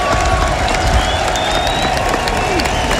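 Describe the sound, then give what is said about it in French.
Crowd roar from the public after the Marseillaise at a live gathering in Maine and Mayenne, a dense, steady wash of clapping and cheering voices that holds at an even, loud level throughout. “Et la clameur du public.”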